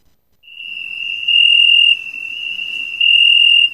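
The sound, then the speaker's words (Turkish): Crickets on a night in Adana, Turkey, among untended parks and vacant lots, give a continuous, piercing high-pitched trill that holds steady and loud throughout, with no voices. “Adanalılar gece saatlerinde yoğunlaşan cırcır böceği sesleri nedeniyle uyuyamıyor.”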